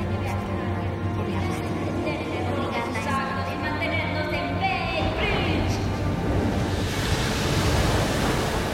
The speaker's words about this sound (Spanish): El agua se mueve misteriosa.